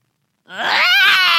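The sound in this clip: A voice imitates a screaming, crying baby with one loud, strained, high wail that begins abruptly after a short silence and holds to the end.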